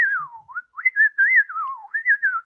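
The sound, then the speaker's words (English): A person whistles a melodic, speech-like line in several short phrases, the pitch gliding and wavering up and down between brief pauses, clear and alone. “So you can whistle, and based on the tone of your whistles, it's like you're talking.”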